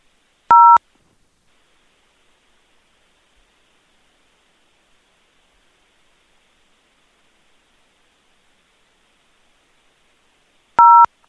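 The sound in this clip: Two brief telephone keypad tones dialing an extension into an automated company phone line, each a short clean beep with about ten seconds of silence between them.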